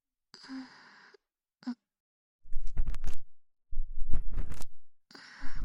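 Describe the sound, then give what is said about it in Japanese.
Scratchy scraping from an ear pick digging earwax just inside the entrance of the ear canal comes in two dense, rumbling bursts, with soft breathy sounds before and after. “次は耳穴の入り口から少し中の耳垢をかき出しますね。”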